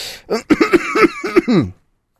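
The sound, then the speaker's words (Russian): A person clears their throat and coughs in several short, voiced, rasping bursts in quick succession, then falls silent. “Не могу никак прокашляться после того,”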